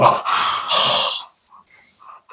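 A person exhales hard through a wide-open mouth, as if cooling a bite of hot pizza, in a few loud, breathy huffs followed by fainter trailing breaths.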